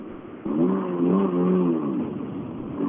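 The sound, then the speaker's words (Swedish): Engine roar of Ford Escort cars driving past: a loud harmonic drone that surges in abruptly, wavers in pitch for about a second and a half, then fades back into a low rumble. “de här heter ju inget annat än Mats Jonsson-eskorter, de här bilarna.”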